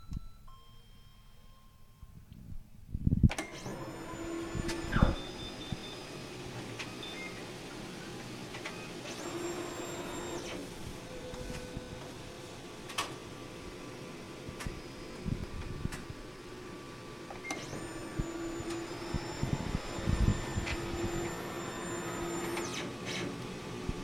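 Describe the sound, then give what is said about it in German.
A pigment textile printer prints a T-shirt with a steady mechanical whir and hum that starts after a few quiet seconds, with faint tonal beeps and busier clattering passages over the running drive. “Das T-Shirt kann in Position gebracht und bedruckt werden. Und das hört sich so an.”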